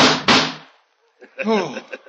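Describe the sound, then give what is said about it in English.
Two loud, sharp gunshots in quick succession in a radio drama, followed by a brief silence and then a man speaking. “Oh, it can't be. I put 6 bullets into you.”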